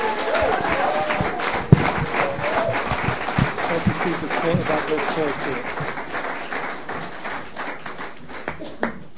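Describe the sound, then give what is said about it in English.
Audience applause greets a speaker from Vancouver, Canada, at a Swedish-hosted meeting, with many quick, crisp claps pattering throughout at a moderate level while voices talk over the clapping. “Och nu en applåd till våran talare Richie från Kanada, Vancouver, Kanada.”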